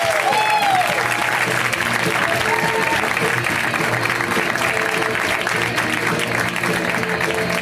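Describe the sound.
Audience applause welcomes a comedian to the stage: continuous, even clapping with cheers mixed in, loud and unbroken from start to finish.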